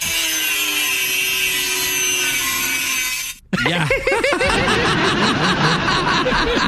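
Sawing as a tree is cut down makes a steady, rasping grinding drone for about three seconds. After a brief gap, a burst of chuckling laughter follows.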